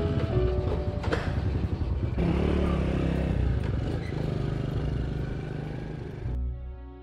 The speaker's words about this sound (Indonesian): mengendarai Honda Astrea tahun 70 menuju lokasi yang dijanjikan